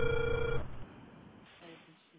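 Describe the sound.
A telephone tone heard while dialing a call: one steady electronic tone for about half a second, then it stops and leaves faint low background noise.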